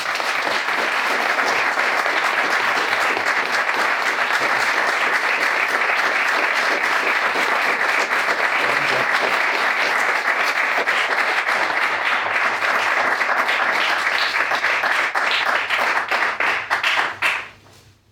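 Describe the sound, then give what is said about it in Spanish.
Sustained audience applause at a gathering, dense and loud continuous clapping that holds steady for about seventeen seconds before fading out abruptly. “Y os pido un aplauso para él.”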